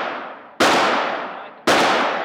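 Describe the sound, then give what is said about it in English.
Two loud, sharp gunshots from a loaded gun at a shooting range, about a second apart, each with a long fading tail; the tail of an earlier shot is dying away at the start. “The gun is now loaded. You have 3 shots.”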